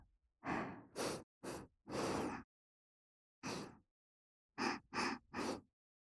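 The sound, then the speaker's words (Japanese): Several breaths drawn in through the nose during deep breathing. Eight short, airy bursts fall in a group of four, a pause, one lone breath, then three more. The fourth breath is the longest, and no one speaks. “鼻からスーッと吸って、口から”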